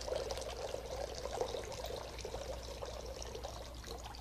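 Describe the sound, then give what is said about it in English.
Water is poured from a pitcher into a bowl during a baptism's flood prayer, a faint, continuous trickling splash that runs steadily without pause. “And you heard the life-giving waters of Christ fall into the bowl.”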